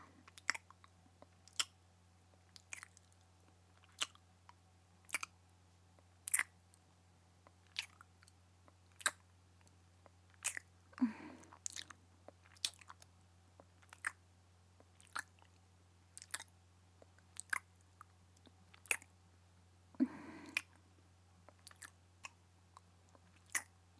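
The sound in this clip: Crunchy, slightly chewy food being chewed in a long series of sharp, crisp bites at a steady rhythm, with no talk and a low, constant hum underneath.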